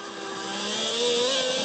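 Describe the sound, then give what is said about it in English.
A car engine revs as the throttle is applied coming out of a corner, the rear end sliding: a faint, steady droning note that climbs slightly in pitch. “Here we go, back on the throttle.”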